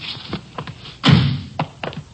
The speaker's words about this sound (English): Just a minute, I'll get the door here.